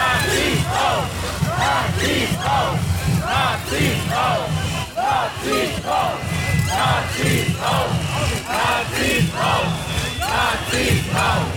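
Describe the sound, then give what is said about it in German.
A large crowd boos loudly at a protest outside a city hall as a prominent AfD politician arrives. The noise is sustained and dense, rising and falling in steady rhythmic swells for the whole stretch. “Es wird lautstark gebuht.”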